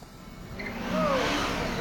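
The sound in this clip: A motorcycle engine revs while the bike swings from a crane as a giant pendulum, a faint, rough roar that swells partway through.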